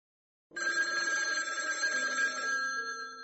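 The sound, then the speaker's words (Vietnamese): Telephone ringing in a bedroom: a bright, continuous electronic ring breaks a short silence and holds at a steady, fairly loud level to the end, with no voices. “Chuông điện thoại trong phòng ngủ reo lên.”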